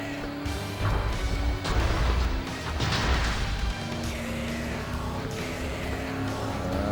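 Car crashing into a house in an Xbox racing video game: a few heavy crunching, smashing impacts burst over a steady, humming engine drone that carries on after them.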